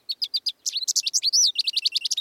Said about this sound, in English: The songs of two common finches provide a steady soundtrack in cities across North America.